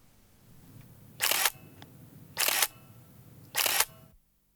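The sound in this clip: Three camera shutter bursts during a photo shoot, each a short, bright crackle of rapid clicks separated by quiet gaps of roughly a second, with a soft background hum between them.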